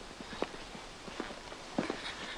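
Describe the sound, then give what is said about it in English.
Footsteps of people walking off: a few soft, irregular steps, faint over a low background hiss. “They walk off.”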